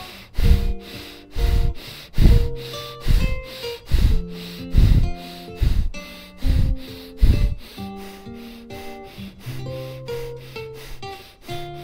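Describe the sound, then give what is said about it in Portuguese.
Rapid, forceful breathing during a guided healing breath meditation: many quick, rhythmic huffing breaths, loud at first and gradually softer toward the end. “São 72 respirações rápidas, assim.”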